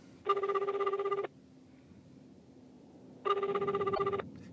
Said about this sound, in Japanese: じゃあもうかけるよもう。